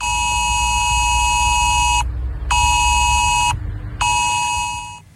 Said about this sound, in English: We're told not to be alarmed when our phones make this sound this afternoon.